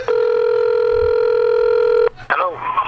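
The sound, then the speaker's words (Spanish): A telephone sounds for an outgoing call: one steady, sustained tone lasts about two seconds, then stops, and a voice begins speaking. “Déjame llamarlo ahora. Llámalo.”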